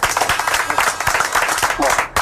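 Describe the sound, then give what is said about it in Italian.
Audience applause at a live talk event: dense, crackling hand-clapping that runs steadily throughout, with a voice speaking over it. “No, qua ci vuole un altro applauso perché...”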